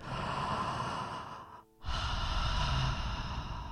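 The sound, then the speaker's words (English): A deep breath: a long, soft, airy rush of breath, then a brief silent pause, then a second airy rush. “Thank you for your priceless blessings in gratitude. Take a deep breath.”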